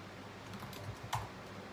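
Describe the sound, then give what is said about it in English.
Light typing on a computer keyboard as a search term is entered in Facebook Ads Manager: a few faint, soft key clicks over low background noise, with one sharper tap near the end. “So what I did to get Sony Music Entertainment was I typed in”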